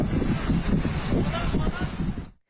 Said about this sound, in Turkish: uyarısının yapıldığı Antalya'da da şiddetli rüzgar etkili oldu. Bazı plajlarda şemsiyeler, şezlonglar yerinden havalandı.